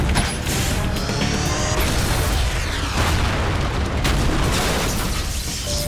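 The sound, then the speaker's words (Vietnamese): An energy beam attack blast from an animated battle scene roars as a dense, loud, continuous rushing burst that fills the whole clip, with no voices. “Tia sáng bóng đêm, bắn.”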